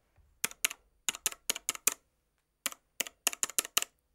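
Keystrokes on a computer keyboard as a nickname is typed: crisp, sharp taps in two quick bursts separated by a short pause, with no talking.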